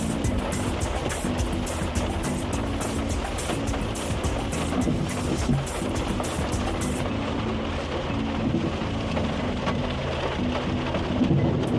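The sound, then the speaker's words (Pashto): Heavy rain pours down in Dallas, Texas, as a dense, steady hiss and roar that stays loud and unbroken throughout, with no voices. “عزیزانو دا سه شدید باران دی کله ډیر زیات شي کله کم شي”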